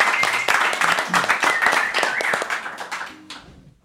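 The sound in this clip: Audience applause welcomes a musical guest onto a show, dense steady clapping with a few cheering voices that gradually thins and fades toward the end.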